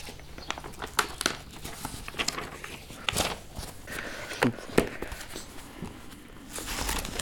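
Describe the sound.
Paper postcards are handled: many soft crinkles, rustles and light taps come in an irregular scatter, with a few sharper clicks standing out, all fairly faint.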